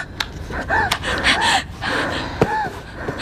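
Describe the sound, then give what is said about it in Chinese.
Heavy, gasping breaths of a frightened person trying to take deep breaths. Several sharp, moderately loud inhalations and exhalations come in an uneven rhythm, without talk. “深呼吸，深呼吸，”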